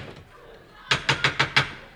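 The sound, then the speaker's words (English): Knocking on the door of a house: five firm knocks in an evenly spaced quick run after a quiet start, each a crisp, clear rap. “Is this Mr. Cron's house? It is, yes. Good. Then I'll knock.”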